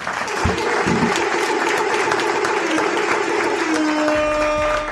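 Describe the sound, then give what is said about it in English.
Audience applause at a live recorded show: dense, steady clapping from a crowd fills the whole stretch at an even, fairly loud level before easing slightly at the very end. “I want to clap for the audience. The audience, clap for y'all, man.”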